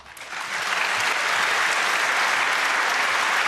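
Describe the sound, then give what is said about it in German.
Applause for a team's work: dense, even clapping swells up over the first half second, then holds as a loud, steady wash. “großen Applaus zum VOG-Team.”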